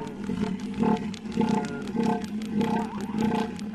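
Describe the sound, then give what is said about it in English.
A male northern elephant seal calling during the mating season on the California coast: a loud, deep, throaty pulsed roar repeating in a steady rhythm of about one pulse every half second. “That is a male northern elephant seal. It's the peak of their mating season right now”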